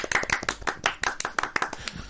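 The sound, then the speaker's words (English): Hands clapping in quick, uneven succession as a small group applauds a shout-out, each clap sharp and distinct, with no voices over it. “Every time we say shout out, I mean, everyone, just clap. Anyone that texts, going to get a clap. I think they're going to get a clap.”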